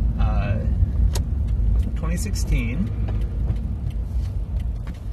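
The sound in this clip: Car engine rumble as the driver carefully pulls out at a turn on the ride home. A steady low drone holds throughout, with brief higher sounds over it.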